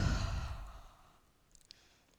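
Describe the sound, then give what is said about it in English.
Loud breath pushed out through the mouth during a short yoga core practice in down dog, a breathy sigh-like exhale that fades over about a second, followed by faint clicks. “Take a moment here to breathe in through your nose and out through your mouth.”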